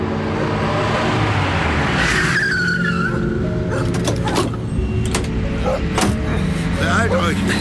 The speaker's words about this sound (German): Es dauerte nicht lange, da wurde diese jedoch durch ein nahendes Fahrzeug gestört.